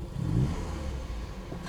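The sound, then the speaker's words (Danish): A car engine revving in a low, fairly faint rumble, loudest early on and then holding steady with a light clatter over it, alone without talk. “Hold det er lyden af bil, det der. Det er lyden af flot, flot bil.”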